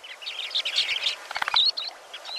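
A western sandpiper calls in a quick run of thin, high-pitched chirps and twittering notes, with a few brief gaps between bursts.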